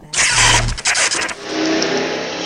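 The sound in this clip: A car drives past outside a window: a loud broad whoosh of engine and tyre noise swells quickly, then eases into a steady, softer hiss.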